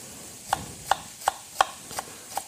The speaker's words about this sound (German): Zwiebeln oder Schalotten, je nachdem, was man da hat. Ich habe jetzt hier kleine Schalotten genommen. Einfach in dünne Streifen schneiden.